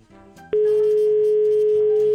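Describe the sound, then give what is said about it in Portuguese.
Telephone dial tone after a call line drops: one steady, loud, mid-pitched tone held for about a second and a half over faint background sound, then cut off abruptly. “Caiu a linha aqui, ó. Caiu a linha.”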